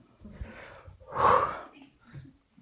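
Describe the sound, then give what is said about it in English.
Deep breath drawn in before a long reading aloud: one strong, breathy inhale swelling and fading in the middle, with faint breathy sounds around it. “It's going to take a while, so everybody take that deep breath.”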